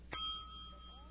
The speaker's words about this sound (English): She hears ringing in Charlie's stomach. What in the world, she thinks.